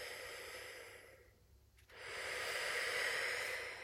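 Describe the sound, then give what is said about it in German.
A slow, deep breath: a soft airy hiss that dips briefly, then swells into a long, loud, steady rush of air before easing off at the end. “Und nimm dann so einen ganz, ganz tiefen Atemzug”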